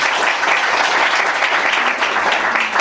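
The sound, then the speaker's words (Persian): Audience applause at a gathering: a dense, fairly loud wash of clapping that holds steady throughout. “اولا به افتخار خودتون یک کف مرتب بزنید”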